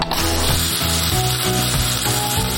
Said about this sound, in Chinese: 下面呢，我们先下汁儿